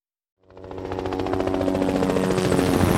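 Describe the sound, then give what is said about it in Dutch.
Trauma helicopter Lifeliner 1 takes off from VU Medical Center in Amsterdam. After a brief silence its rotor chop starts and builds into a loud, steady pulsing roar. “Lifeliner 1 stijgt op vanaf het VU Medisch Centrum in Amsterdam. De traumahelikopter reageert op een alarm”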